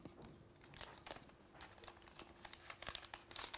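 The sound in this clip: Protective plastic film is peeled off new Xiaomi 17T phone packaging, giving faint, irregular crinkling and crackling with many small bursts and no voices.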